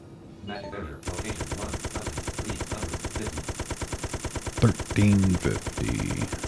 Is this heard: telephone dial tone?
no